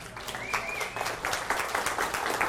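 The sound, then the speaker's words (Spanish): An audience applauding during a church sermon: dense, steady clapping that fills the whole moment at a moderate level, with no speech over it. “¿Le das un aplauso al Señor?”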